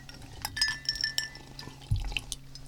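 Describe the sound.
Glasses clinking in a toast at a restaurant, a few bright, ringing clinks close together early on, followed by a soft dull knock and quieter faint rustle, with no voices heard.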